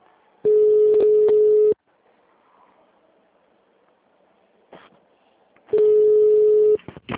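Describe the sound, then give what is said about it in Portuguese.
Telephone tones as a call is transferred to an office extension: two long, steady, low beeps separated by several seconds of near silence with faint clicks. “Só um momento, vou te passar para o ramal tá dela, tá?”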